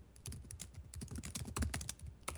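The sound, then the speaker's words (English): Quiet typing on a computer keyboard, a quick run of irregular, rapid keystroke clicks. “I'm sorry, I'm just typing into Google real quick to make sure I remember this right.”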